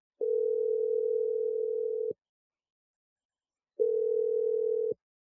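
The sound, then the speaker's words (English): Ringback tone plays on an outgoing phone call: two steady, mid-pitched tones with a long silence between them. The first lasts about two seconds and the second is shorter. “I'm going to dial his number.”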